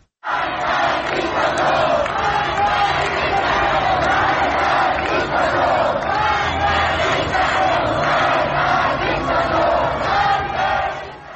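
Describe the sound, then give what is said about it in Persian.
A large crowd of demonstrators moves through Shahrak-e Azadi in Tehran, their many voices merging into a loud, continuous roar of shouting and chanting that barely dips. “یک ویدیوی دیگر میتونیم بشنویم از شهرک آزادی تهران که اونجا هم جمعیت زیادی در حال حرکت دیده میشن در این ویدیو.”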